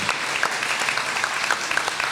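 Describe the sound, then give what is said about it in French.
An audience applauds at a panel debate event, with steady, dense clapping from many hands that holds at an even level throughout and no talk over it. “Je crois qu'on peut l'applaudir.”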